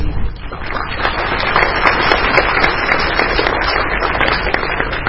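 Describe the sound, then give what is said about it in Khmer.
Audience applause fills Chaktomuk theatre on the opening night of a Cambodian film festival, steady dense clapping from hundreds of people that holds at an even, loud level from start to finish. “ស្នូទះដៃបានលើកោរំពងនៅក្នុងមហោស្រពចតុមុខនៅក្នុងរាត្រីនៃការជួបជុំគ្នារបស់សិល្បករសិល្បករនីអ្នកផលិតខ្សែភាពយន្តនិងទស្សនិកជនរាប់រយនាក់”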